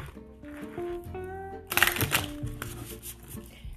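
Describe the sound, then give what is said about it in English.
A deck of cards is shuffled in one brisk, papery riffling burst, followed by lighter rustling over soft background music. “Shuffle these cards real quick. I really love these cards.”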